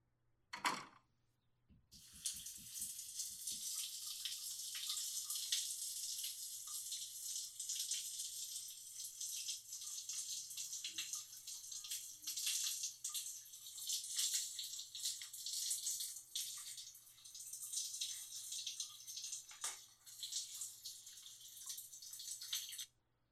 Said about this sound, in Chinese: 好了，我先洗澡了。